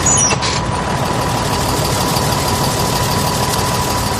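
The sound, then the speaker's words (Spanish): A vehicle's engine runs loudly while the vehicle drives around an energy park. It gives a steady, constant rumble with a vibrating drone that barely changes over the whole stretch. “De hecho, tenemos que utilizar un vehículo para desplazarnos de un punto a otro.”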